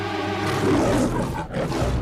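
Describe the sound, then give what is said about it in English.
A lion caught by the neck in a hunter's rope trap roars angrily in a forest, a loud, deep, continuous roar that holds steady for about two seconds with one brief dip near the end. “The lion filled the forest with his angry roaring.”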